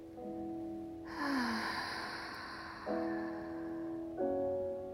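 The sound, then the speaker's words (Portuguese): Deep exhalations pass through open lips during a guided breathing exercise, soft airy rushes of breath that swell and fade over sustained, gently shifting musical tones. “E ao expirar, você vai se dar um abraço, abrindo os lábios e permitindo com que o ar realmente saia assim, ó.”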